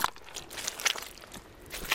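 Footsteps squelch through the thick mud of a Wadden Sea mudflat, with a series of wet, smacking, sucking steps in an irregular rhythm.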